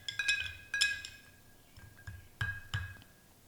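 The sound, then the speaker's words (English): A cocktail is stirred in a glass, so a spoon taps the glass with many bright, ringing clinks. The clinks come in irregular pairs and single taps and stay fairly quiet, and no one speaks. “And I'm going to stir just a little bit.”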